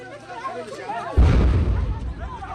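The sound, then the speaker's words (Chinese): A missile strike explodes near a tent camp for displaced families in Gaza: a person talks, then one sudden heavy boom breaks in and its loud rumble rolls on and slowly fades. “现场画面显示，一处帐篷营地附近爆炸声不断，附近民众听到爆炸声后向四处逃散。”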